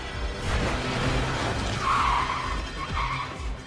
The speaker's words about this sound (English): Look how my man driving to take Jean to the hospital.